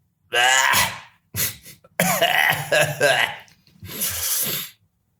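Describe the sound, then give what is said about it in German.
Harsh coughing mixed with throat clearing comes in a few loud, separate bursts with short silent gaps between them, the longest fit holding several rapid coughs in a row. “Entschuldigung, du kannst da rausschneiden, das Gehuste.”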